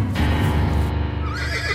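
An agitated horse neighs in one long, loud whinny, its pitch quavering and shaking as it trails off toward the end.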